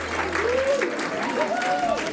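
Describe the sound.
An audience applauds a kora player: a steady, dense patter of clapping runs throughout while a voice talks over it.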